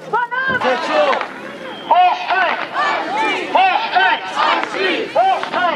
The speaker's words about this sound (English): now, the crowd of roughly 200 people earlier, made up of activists and community members, many who have been protesting for weeks